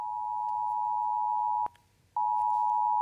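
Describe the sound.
Alert tone from a nationwide warning-day test in Germany: a steady, loud, mid-high electronic tone that stops with a sharp click, falls silent for about half a second, then resumes unchanged.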